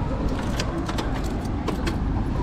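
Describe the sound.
Scooter keys jangle in several short metallic bursts, heard over a steady rumble of traffic and engine noise.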